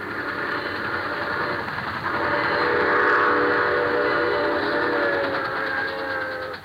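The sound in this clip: A train with a locomotive passes as a steady, loud rumbling roar with a drawn-out whistle-like tone. The sound swells slightly around the middle and eases near the end.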